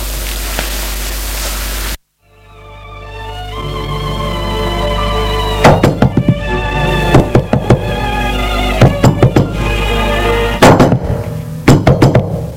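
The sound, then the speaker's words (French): Knocking on a door comes in several short clustered bursts of sharp raps, loud over a steady, sustained musical drone. “On l'a frappé à la porte.”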